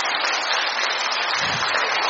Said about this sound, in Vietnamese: Đấy, một tràng pháo tay thật lớn cho những anh chị em này, thấy không?